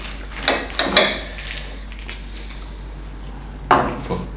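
Knife cutting a croissant in half at a breakfast table: a few crisp, crackling scrapes and light clatters come in short bursts, with a pause before a final sharper crunch and a softer follow-up.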